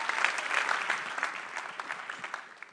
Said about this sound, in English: Would want to welcome Brother Victor. And he says, fasting and prayers bring supernatural deliverance from motor accident. Please welcome him with a clap.